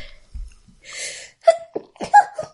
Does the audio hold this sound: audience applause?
no